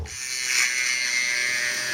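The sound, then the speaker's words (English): An immersion blender whirs through chilled sweet potato and plantains, a steady, loud, high-pitched buzzing drone that runs continuously without a break. “to get it really, really smooth, we need an immersion blender.”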